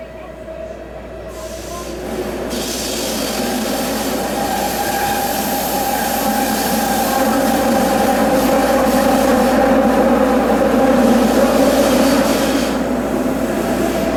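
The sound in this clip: A Tokyo subway train running on a metro line that is noticeably loud for the system: a continuous rumbling roar layered with sustained whining tones, slowly growing louder over about fourteen seconds before easing slightly near the end.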